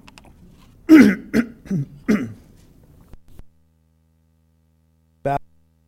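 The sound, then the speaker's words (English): A person clears their throat in a few rough, forceful bursts that follow one another, then after a pause gives one short final rasp. “excuse me. Got a frog in my throat.”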